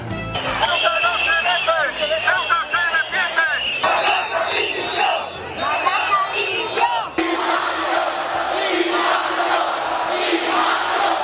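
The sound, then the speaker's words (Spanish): A crowd rallies in Madrid's Plaza de Cibeles in support of Ceuta. Voices chant in loud, rhythmic unison for several seconds, then give way to a denser, sustained roar of shouting. “España se moviliza por Ceuta. Miles de personas han llenado las plazas de todo el país para apoyar a la ciudad autónoma”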